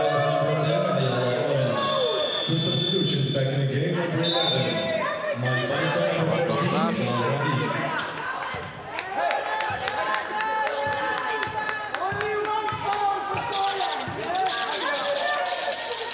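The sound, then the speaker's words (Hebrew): Crowd chatter and scattered cheering from fans at a women's basketball game against Poland murmur in the background beneath continuous commentator talk. “אנחנו שומעים ברקע גם כל מיני דברים מהקהל. יש, יש שם אוהדים, בטח.”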